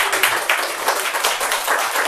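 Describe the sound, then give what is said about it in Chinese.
Clapping from a church audience welcoming a new member, a brisk, dense and continuous patter of hands heard alone, fairly loud, with no talk over it. “欢迎葛梦萍姐妹加入心福，大家可以鼓掌。”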